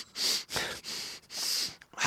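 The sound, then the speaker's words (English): A person leans in to sniff a bright pink flower that has just come into bloom, taking a few quick, breathy inhalations through the nose in close succession, with no talking. “I'm just going to go a bit closer and have a sniff.”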